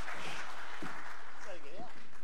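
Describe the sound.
Audience applause for a man at a church gathering, soft continuous clapping with a voice speaking briefly over it.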